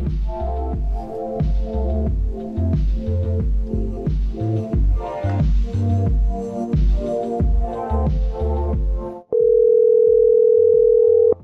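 A telephone ringback tone heard on a call to a hotel: one loud, steady buzz at an even pitch lasting about two seconds, following several seconds of rhythmic music.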